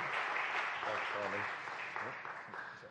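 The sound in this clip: Applause welcomes the Labour Party's parliamentary candidate at a 2017 general election event, a steady patter of clapping that fades slightly toward the end while a voice speaks over it.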